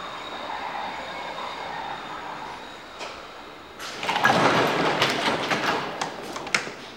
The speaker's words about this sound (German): Da kommt der Zug. Er wartet nicht.